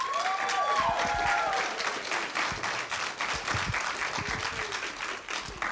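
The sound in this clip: Audience applause welcoming a speaker at a church gathering: dense, continuous clapping from a crowd, loud at the start and easing slightly toward the end.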